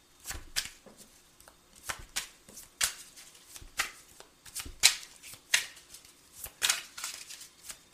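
Playing cards being shuffled and dealt during a card game, with players drawing more cards. Many crisp, quick flicks and riffles of the cards, irregular in rhythm and moderately loud, with no talk.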